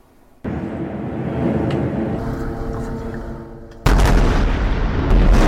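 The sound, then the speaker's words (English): Airstrike explosions in Gaza hit as two sudden, loud bursts of deep, broad rumbling. Each is followed by sustained roaring noise, and the second blast is louder than the first. “This was a scene in Gaza earlier Monday. Israel says its airstrikes destroyed several homes that it claims belong to Hamas commanders.”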